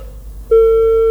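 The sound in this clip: A telephone tone on a listener call-in line as an incoming call comes through: one loud, steady electronic tone that starts partway in and holds unbroken to the end, with no voices.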